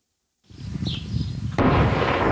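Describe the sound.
Israeli shelling and gunfire in Lebanon amid fighting with Hezbollah militants: after a moment of silence a low rumbling boom swells, then a sudden louder blast breaks into a sustained harsh roar that stays loud to the end, with no voices.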